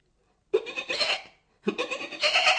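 A young kid goat gives two bleats: long, shaky, nasal cries of about a second each, separated by a brief silence.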